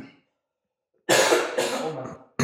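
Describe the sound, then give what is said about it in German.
A person with a lingering cough lets out a harsh, rough burst of coughing after a silence, then one short final cough. “Der Husten ist immer noch nicht ganz weg.”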